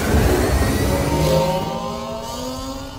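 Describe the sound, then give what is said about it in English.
An animated sci-fi speeder bike engine revs in a loud, continuous, buzzing drone that holds steady for the whole stretch, with no voices. “And he gets on his speeder bike”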